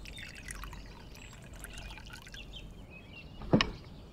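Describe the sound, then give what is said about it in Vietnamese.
Water is poured into a cup in a soft, steady trickle, with a brief louder knock near the end. “rót nước cho mẹ”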